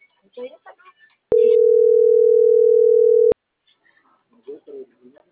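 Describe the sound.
Telephone line tone while waiting for an operator to answer: one steady, loud, mid-pitched beep lasting about two seconds, with people talking before and after it.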